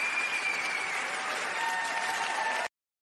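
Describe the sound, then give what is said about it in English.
Dense, steady applause from many clapping hands, holding at an even level for under three seconds before cutting off abruptly into silence. “I had to give you a round of applause for that.”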